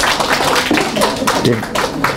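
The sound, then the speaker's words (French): An audience in a French-speaking gathering applauds someone, with a few scattered claps mixed in among voices talking over them. “Allez, il faut l'applaudir aussi, voilà.”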